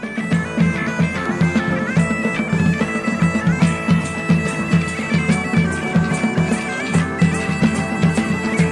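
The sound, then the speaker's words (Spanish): A street music group plays during a historical festival in Laredo that re-enacts a royal landing. The music is loud and continuous, with a steady beat of regular pulses under sustained tonal melody lines, and no voices. “Este es el sonido de una de esas agrupaciones que participan en el último desembarco de Carlos V.”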